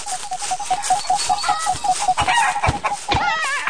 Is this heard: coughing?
no